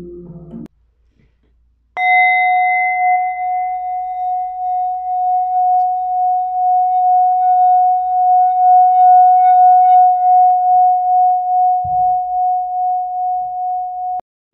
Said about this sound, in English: I am going to play some heart chakra frequencies.